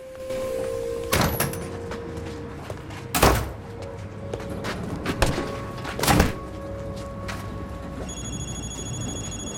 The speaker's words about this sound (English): In the alley outside, he instantly dumps the laptop in a large industrial bin.